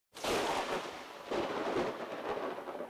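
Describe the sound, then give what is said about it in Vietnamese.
Thunder rumbles during a storm in two heavy, broad rolls. The first starts abruptly and carries on before a second crash swells and fades out slowly. No one speaks. “Đúng lúc này, một tia chớp lóe lên trong mây đen, tiếng sấm rền biến thành tiếng sấm vang rồi, cực kỳ đáng sợ.”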